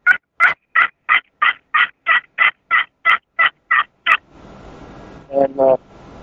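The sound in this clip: A blown turkey call imitating a wild turkey: a long, rapid run of sharp, evenly spaced yelps, then after a brief hiss a softer two-note double tone near the end.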